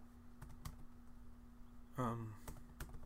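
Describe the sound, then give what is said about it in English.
Faint, sparse keystrokes on a computer keyboard, a few light clicks spread out, with a short voiced sound breaking in midway. “Just type that.”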